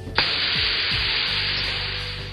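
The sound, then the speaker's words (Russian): A tiny gas canister is sprayed in one sharp, continuous hiss that starts suddenly and holds steady for about two seconds, fading slightly at the end. “Мужчина достал из кармана крохотный газовый баллончик, стремительно зажал себе нос рукой и прыснул на мальчика из баллончика.”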